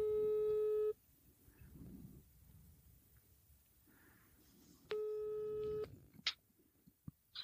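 Two long, steady telephone ringback tones play while a call is placed, separated by several seconds of quiet background with faint rustling and a few brief clicks.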